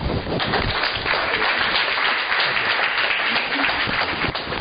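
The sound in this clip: Many hands clap to welcome a speaker at a recovery group meeting, producing a steady, dense patter of applause at an even, moderate loudness from start to finish.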